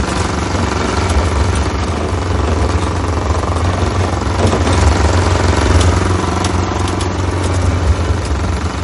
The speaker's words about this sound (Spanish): Otro día, Fuser conduce por una carretera de tierra entre campos.